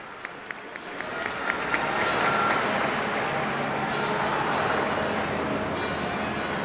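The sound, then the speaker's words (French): A crowd applauds and cheers as Pope Leo XIV arrives at a cathedral in the Canary Islands, with a few isolated claps swelling after a second into steady, sustained applause. “et qui est acclamé par la foule. Le pape Léon XIV qui s'avance, qui est accueilli.”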